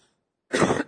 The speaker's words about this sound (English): Please forgive if I'm coughing a little bit.